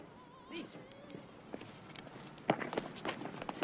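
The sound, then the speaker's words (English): Quick, light footsteps as someone runs down a grassy slope between two houses, faint and soft at first, then a brief flurry of louder steps near the end. “Steph runs down a grassy slope between two houses.”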